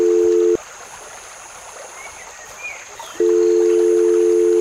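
A mobile phone call's ringing tone: a steady, single-pitch mid-range tone sounds briefly, stops for a quiet gap of nearly three seconds with faint background hiss, then returns and holds loudly to the end.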